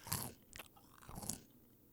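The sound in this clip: Crunching on chips, a few crisp, brittle bites in quick bursts, faint and without talking.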